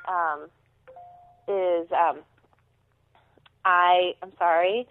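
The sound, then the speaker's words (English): A mobile phone rings with a melodic tone in a few short bursts separated by quiet gaps, with a brief steady beep between the first two. “I've tried to silence my phone, and I know you'll have to blurb this out on the recording. It's fine. We like phone calls on this show.”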